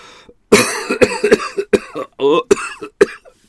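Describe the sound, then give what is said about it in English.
Rapid fit of harsh coughing from someone with something stuck in the throat: a quick series of loud, hacking bursts, some with a strained, voiced choke. “Oh, I had something in my throat during that.”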